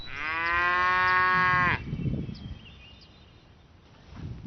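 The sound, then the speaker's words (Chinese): A single long, loud moo from cattle in a herd rings out for over a second with a rich, steady tone. It breaks off abruptly into quieter rustling and low shuffling noise. “午休结束，保利高清点牛群数量。数来数去却不见白花的身影。”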